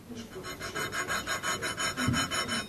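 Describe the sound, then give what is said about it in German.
A gunsmith files down the stock of a rifle where the barrel is being fitted: many quick, even rasping strokes in a steady back-and-forth rhythm. “An den Stellen feilt sie nach.”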